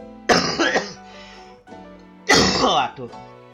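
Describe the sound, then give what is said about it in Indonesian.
A person coughs in two loud, harsh bursts about two seconds apart, each made of several quick rough hacks, with quieter breathy sounds between them. “batuknya ya.”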